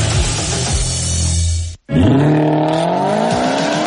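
Car engine roaring loudly with tire noise. After a brief cut, the engine note climbs steadily in pitch as the car accelerates.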